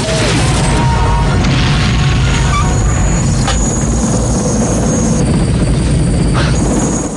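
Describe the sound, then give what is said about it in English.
An attack helicopter exploding after gunfire over a village in an action film, heard as a loud, dense, steady roaring rumble that fills the whole clip without pause and with no voices. “Bullets impact the attack chopper's nose, then the chopper explodes.”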